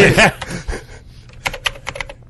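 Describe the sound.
Fast typing on a keyboard, a quick scatter of light clicks of uneven loudness that follows a brief voice at the start.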